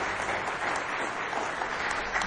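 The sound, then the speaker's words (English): Audience applause for children about to sing during a morning gathering: dense, steady hand clapping that holds an even level from start to end, with no talk over it. “Give these kids one more good hand clap as they get ready to sing for you this morning.”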